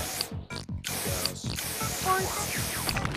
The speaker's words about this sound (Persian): پرتاب اسپری،